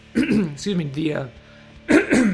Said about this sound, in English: Wow, it's getting actually worse every time I try to clear my throat.